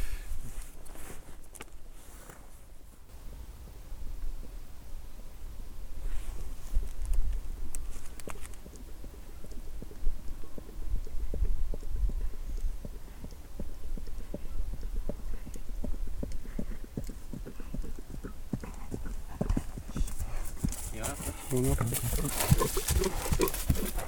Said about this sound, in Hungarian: És most egy lovas közeledik felénk. Lépj hátrébb egy kicsit. Na, ezt meghallgatjuk.